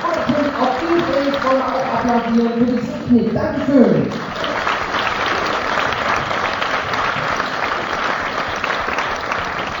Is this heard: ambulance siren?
no